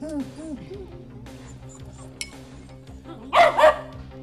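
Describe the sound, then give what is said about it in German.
A dog gives a short double bark near the end. Voices and low tones come before it. “Goldi ist Papas Hund”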